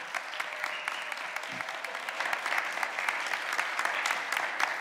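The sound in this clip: An audience applauds to welcome a member's parents during a morning church service, producing a soft but steady patter of many hands clapping that continues evenly throughout without any voices.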